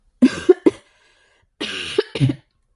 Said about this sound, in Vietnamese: Yến Hạc Thanh ho khan, ngâm mình trong nước lạnh một thời gian sẽ khó tránh khỏi bị cảm.